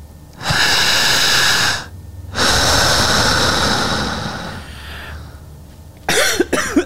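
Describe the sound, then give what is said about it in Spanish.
Coughing and throat clearing during a hypnosis breathing exercise: two long, loud rushing breaths, then a few short, harsh coughs close together at the end. No talk is heard. “Raspa garganta.”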